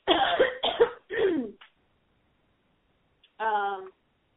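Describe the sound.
A person clears their throat and coughs to relieve a feeling of something stuck in the throat: a few rough, breathy bursts, a pause, then one short, tonal clearing sound.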